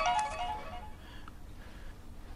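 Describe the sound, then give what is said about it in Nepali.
A mobile phone ringtone plays a short burst of bright, melodic electronic tones that quickly fade into faint background noise. “Merry wife का phone है”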